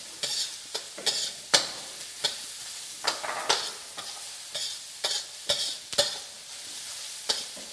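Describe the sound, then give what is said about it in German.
Carrots and other vegetables sweating in a pan for curry: a soft, steady sizzle under many repeated scraping stirs of a utensil against the pan, with an irregular rhythm and no talking. “Also das schön anschwitzen. Als nächstes gibst du die Möhrchen dazu.”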